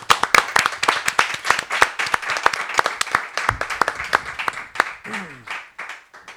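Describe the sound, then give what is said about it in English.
An audience at a community bookstore applauds a guest author with dense, steady clapping from many hands. The applause stays full for several seconds, then thins and fades toward the end. “Please give it up for Megan Steelstrom.”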